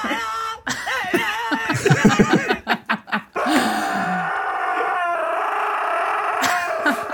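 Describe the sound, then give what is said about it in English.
A dog makes strange howling cries, first a run of short, uneven yelping bursts and then a long, steady, sustained howl that holds to the end. “It's a dog. Oh, that's a dog? That's just how it barks.”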